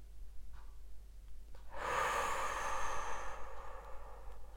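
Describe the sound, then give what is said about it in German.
A single deep inhalation, a soft airy hiss drawn in slowly that swells and holds for a couple of seconds, faint against near silence. “Tiefer Einatemzug.”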